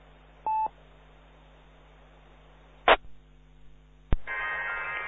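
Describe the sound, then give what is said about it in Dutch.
A short telephone dialing tone over a phone line with a low steady hum, followed by two sharp clicks and then a loud burst of hissing line noise. “Oké, dat was de telefoon.”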